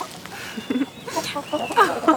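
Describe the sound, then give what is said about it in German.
A hen clucks in several short, soft, irregular bursts, with the clucks becoming more frequent and a little louder toward the end. “Die sind ja super weich. Nie im Leben hätte ich gedacht, wie kuschelig so ein Huhn sein kann.”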